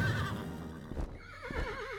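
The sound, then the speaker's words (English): A horse whinnies for the winged horse Pegasus of Greek myth, a shrill, quavering neigh with wavering pitch, followed by a second trembling whinny. “Suddenly, from Medusa's severed head sprang a gigantic winged horse, Pegasus. Pegasus let out a cry, flying toward the heavens.”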